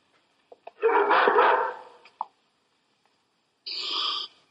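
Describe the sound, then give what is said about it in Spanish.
A frightened dog barks twice in long, whining bursts. The first is drawn out and fades away, and the second is shorter and brighter. A few faint clicks sit around them in otherwise quiet surroundings. “Su perro está asustado. Mi criado cuidará de él.”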